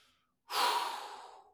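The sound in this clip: A single soft, relaxed exhaling breath follows a brief silence, a breathy, airy rush that rises quickly and then slowly fades, alone without talk.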